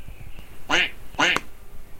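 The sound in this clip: Duck quacking in a farmyard tale, voiced by a person imitating the bird: two loud, nasal quacks about half a second apart, each short and harsh, over quiet background hiss.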